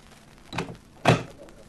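A door opens and shuts at the entrance to a large room full of gambling tables: two separate dull wooden thuds about half a second apart, the second heavier and louder, over a quiet background.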